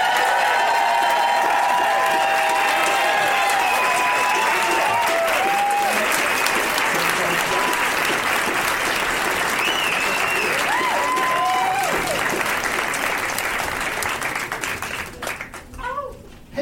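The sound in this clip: A Denver audience claps and cheers to welcome three guests onto a live comedy stage. Dense applause carries repeated whoops and shouts, stays loud for most of the stretch, then thins out near the end.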